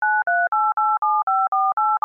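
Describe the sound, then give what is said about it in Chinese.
Mobile phone keypad tones as a phone number is entered: nine even, evenly spaced beeps in quick succession, each a steady two-note chime of slightly differing pitch, the last one cut short. “那你们现在手机拿出来，然后输入一个电话号码。”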